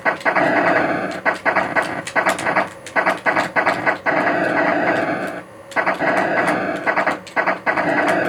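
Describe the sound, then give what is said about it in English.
Atari video game sound effects: loud, noisy explosion bursts mixed with a rapid, rattling laser that sounds like a machine gun, repeating almost without pause throughout. “Lots of explosions. The laser that kind of sounds a little bit like a machine gun.”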